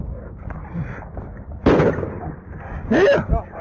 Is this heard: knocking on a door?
no